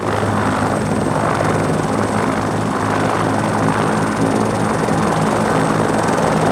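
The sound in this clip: A rescue helicopter flying in the Torres Strait region, its loud, steady rotor and engine drone holding a constant level throughout, with no voices.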